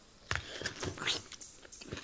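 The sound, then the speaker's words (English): Biting into a plum-like fruit, with a few crisp, moist crunches and chewing sounds packed into a couple of seconds, heard without talk. “I am taking a bite of each fruit. I have become very fond of these fruits while I have been on Tana.”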